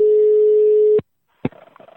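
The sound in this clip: A telephone ringing tone while a call is placed: one loud, steady low tone about a second long cuts off, then a sharp click and faint noises follow.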